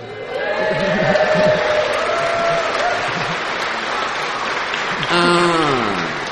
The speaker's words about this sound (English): Wow. Thought we'd already been cheered for that.